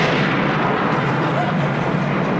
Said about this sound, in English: It's all right. It's not a bomb. It was thunder.